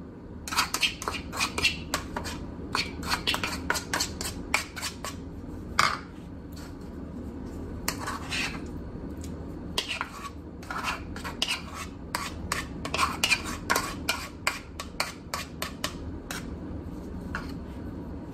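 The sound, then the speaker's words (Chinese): Garlic, salt-and-pepper powder and other ingredients, later spread on shrimp backs with garlic butter, are mixed together in a bowl: many scraping, rubbing strokes in an irregular rhythm, with no talk. “我们现在开始呢就是将所有的东西混合在一起，然后就铺上去啦。”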